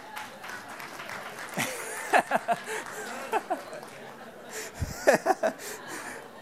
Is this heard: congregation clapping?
yes